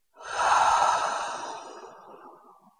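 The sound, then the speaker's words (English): Audible breathing: one long, breathy outbreath through the mouth, like a sigh. It starts strong and fades away gradually over about two seconds. “Do that one more time. Breathe in and out with sound.”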